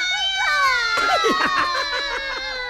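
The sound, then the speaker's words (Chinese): A child cries in a high, sustained wail, the voice breaking into quick, wavering sobs that bend up and down in pitch. “你别哭了，你也别哭了啊！”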